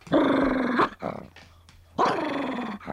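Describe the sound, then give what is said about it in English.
A dog barks at a person coming up the walk, giving two drawn-out, harmonic bark-howls with a few softer, shorter sounds between them, fairly quiet overall. “a dog could be barking at a person coming up the walk. This kind of bark only shows a general interest in the person.”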